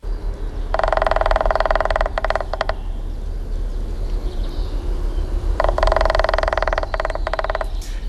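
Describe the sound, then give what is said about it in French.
A male green woodpecker drums on a tree trunk in two rapid rattling bursts of about two seconds each, separated by a long pause, over constant low background noise. “c'est bien un pie vert qu'on a entendu, c'est même un mâle. Parce que s'il tape sur le tronc d'arbre pour produire le son qui a été diffusé, c'est pour marquer son territoire”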